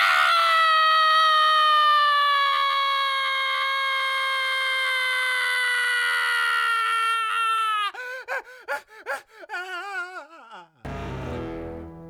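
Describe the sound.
A huge wail after a kick: a loud, sustained, high-pitched harmonic cry held for several seconds that then breaks into shaky, wavering bursts and ends in a rough noisy blast.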